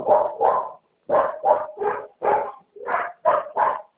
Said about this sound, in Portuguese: tem uns cachorros latindo aqui, tá uma dificuldade para me entender.